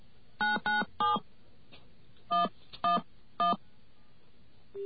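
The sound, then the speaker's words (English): Touch-tone telephone dialing: six crisp, evenly pitched beeps, three in quick succession, a pause, then three more, with faint line hiss underneath. “Okay, let's make a telephone call here. And those of you who are really clever will be able to figure out what it is I'm dialing.”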